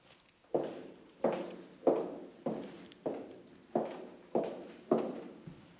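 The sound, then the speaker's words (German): Footsteps walking: eight even, regularly spaced steps, each with a sharp onset and short decay, clear and alone. “Komm, wir gehen weiter.”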